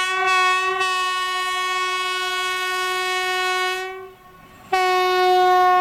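A train horn sounds in a long, loud, steady multi-tone blast that holds for about four seconds, drops away briefly, then blasts again to the end; no voices.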